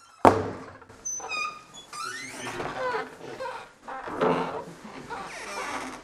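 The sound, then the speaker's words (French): A swinging door leading to a school refectory gives a sharp thump, followed by long squealing, creaking whines that shift in pitch and recur for several seconds. “Eh bien oui, c'est le son de la porte battante qui mène au réfectoire, qui fait ce mélodieux bruit qu'on entend tous les midis.”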